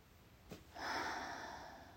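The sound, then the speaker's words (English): A deep breath drawn in through the nose and then released, as a grounding exercise: a short nasal sniff, then a long, steady, breathy exhale that fades slowly. “So breathe in through your nose. and release.”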